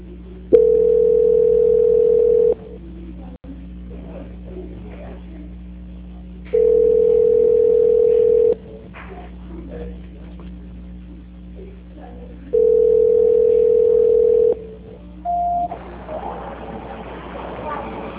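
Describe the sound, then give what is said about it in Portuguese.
Telephone line tones while a call is being transferred: three long, steady, pitched tones, each about two seconds and evenly spaced, with faint line noise in the gaps, then one short, higher beep. “A ligação voltou para mim. Transferência.”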